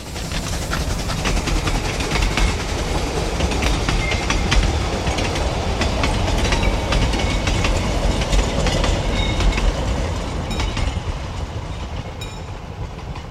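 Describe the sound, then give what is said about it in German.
A train rolls past for the whole stretch, a steady loud rumble with rhythmic clickety-clack of wheels on rail joints and faint metallic squeal, swelling slightly mid-pass and easing toward the end. “Der Zug fährt hier 8:55 vorbei.”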